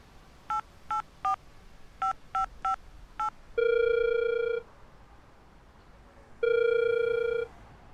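Seven quick telephone keypad tones dial a number, then two long, even ringback tones follow on the line. Faint hiss fills the quiet between tones.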